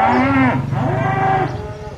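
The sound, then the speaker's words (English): Dairy cows moo at milking time on a Dartmoor farm in the United Kingdom. Two long, loud, low moos follow one another closely, the second slightly longer, and then a quieter tail of farm background. “It's milking time at Wingstone Farm in Manitoun, United Kingdom, where these ladies were recorded”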